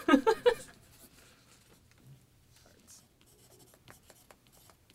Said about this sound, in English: I'm loving the amount of like ASMR writing noises we're getting off of the mics today.